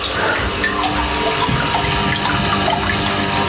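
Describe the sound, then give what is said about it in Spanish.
Trickling water from an indoor fountain with a Buddha statue, a continuous, even splashing flow that holds steady throughout with no voices. “¿Escucháis la fuente?”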